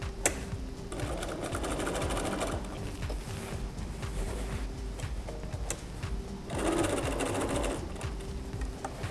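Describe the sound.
A sewing machine backstitches at the top of a pocket opening on an apron, giving a steady, fast mechanical whirring and rattling that runs throughout and grows louder near the end.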